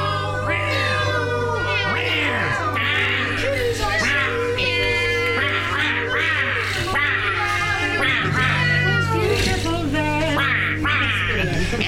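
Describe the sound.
A cat meows over and over in chatty, talkative bursts, many wavering cries layered over a low steady hum, with human speech mixed in.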